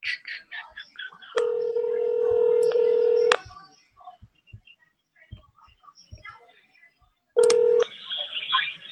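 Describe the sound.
Telephone keypad tones: a long, steady electronic tone of about two seconds, then a short one several seconds later. Soft clicks and hushed, murmuring voices fill the gaps between them.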